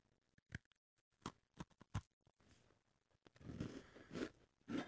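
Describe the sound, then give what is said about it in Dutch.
Crisp bites into a crunchy homemade chocolate cookie give a few sharp cracks, followed by softer, steadier chewing, all quite faint. “Ik ga voor het zelfgebakken koekje van Robbe. Spannend. Eigenlijk moet ik niet proeven, want ik heb al heel de ochtend koekjes gegeten, maar ik zal het toch even proeven voor jullie thuis.”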